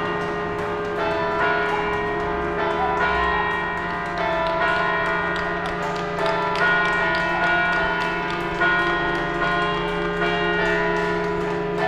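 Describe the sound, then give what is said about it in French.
Church bells peal at 8 pm in the Vaise district of Lyon, with many rapid overlapping strikes over a continuous, resonant hum of sustained tones. The ringing is steady and moderately loud throughout, with no talk. “les cloches sonnent”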